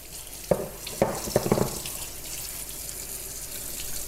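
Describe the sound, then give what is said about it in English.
Running tap water rushes steadily over salted cabbage being washed by hand, with a few sharp splashes and knocks in the first couple of seconds before the flow continues alone. “I'm just washing away the excess salt here.”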